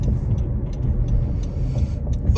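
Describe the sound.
A car arrives with a low, steady engine rumble that holds an even level throughout, with faint higher ticks scattered above it.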